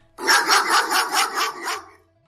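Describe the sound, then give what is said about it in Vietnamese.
Dogs barking, four dogs tied to a tree by guards: a quick, loud run of about six sharp barks, then silence. “Lúc này, phía đối diện chợt vang lên tiếng chó sủa.”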